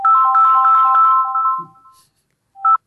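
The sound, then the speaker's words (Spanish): A phone ringtone sounds as someone calls: a loud, bright electronic melody of quick pulsing notes plays for about a second and a half, then stops, and one short tone burst comes back near the end. “alguien está llamando, bien.”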